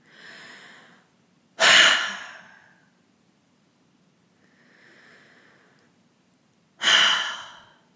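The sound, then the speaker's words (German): Two deep, forceful exhales during a guided meditation, each a loud, breathy rush that fades out slowly. A softer, quieter breath comes before each one. “Atme so stark wie möglich aus.”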